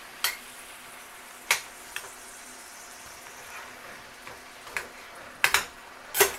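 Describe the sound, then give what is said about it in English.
Meat being broken up with a metal spoon in a cooking pan: several sharp scraping clicks, scattered and irregular, over a faint steady sizzling hiss. “All right, so we're just breaking the meat up.”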